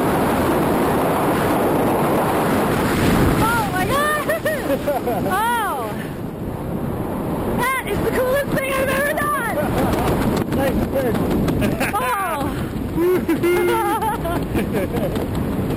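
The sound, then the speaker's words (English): Engine and wind roar inside a plane flying above the clouds at 4,400 feet before a parachute jump, a loud continuous rushing noise with people talking over it. “We are above the clouds. We're at 4,400 feet.”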